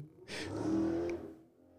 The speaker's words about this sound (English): Somebody wants to race. Like it's just a Porsche. Calm down.